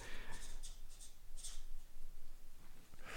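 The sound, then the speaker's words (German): Pen scratching on a slip of paper: a few faint, short scraping strokes spaced irregularly across the moment, soft and dry. “ich schreibe jetzt mal ganz kurz dein Spiel auf diesen Zettel”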